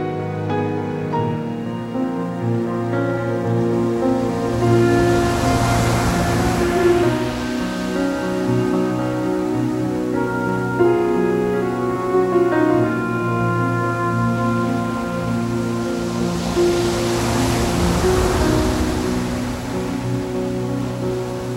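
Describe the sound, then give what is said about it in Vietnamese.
Giant ocean waves crash into a deep sea with a heavy roar of surf, swelling into loud surges. The waves blend with a sustained musical drone. “Những đợt sóng khổng lồ nhận chìm cả người lẫn vàng xuống biển sâu.”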